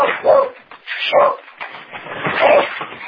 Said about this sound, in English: the dog's excited there